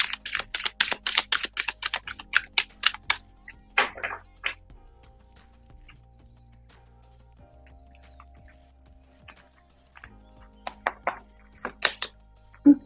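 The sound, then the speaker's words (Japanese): Oracle cards are shuffled and drawn in a quick run of many sharp, light taps and flicks, fairly faint. A long quiet stretch follows, then a few more flicks come near the end. “ちょっとオラクルカードの方を引いていきますね。少々お待ちください。”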